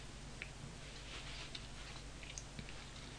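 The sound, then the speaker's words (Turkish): Faint ticking of a clock on the shelf above a fireplace, a few soft, slightly irregular clicks over a steady low hiss, with no voices. “Şöminenin üstündeki rafta duran saat.”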